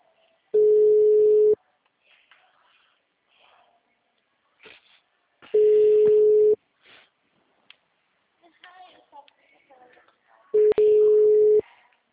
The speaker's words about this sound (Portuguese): Aí, estou tocando.